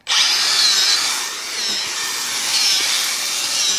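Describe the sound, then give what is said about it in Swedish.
A power drill bores holes into a birch log for mushroom spawn plugs. It makes a steady, loud, high whine with slight shifts as the bit meets changing resistance in the wood. “Men då borrar jag 4 hål och så sätter jag in en tapp per hål”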